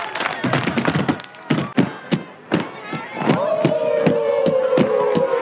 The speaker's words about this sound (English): What are they doing, man? They're stomping the yard.